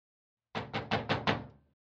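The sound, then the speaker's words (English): Knuckles rap on a door five times in an even, brisk rhythm. The knocks are fairly faint and evenly spaced, with the last one trailing off. “That could be him. Get the door, please.”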